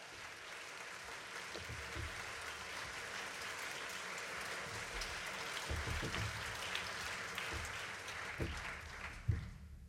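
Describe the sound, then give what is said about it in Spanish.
Applause played as a sound effect: sustained, dense crowd clapping that runs evenly for about ten seconds, with a single sharper hit standing out near the end. “Creo que yo solo voy a hacer sonar más aplausos que toda esa gente que se oye al final.”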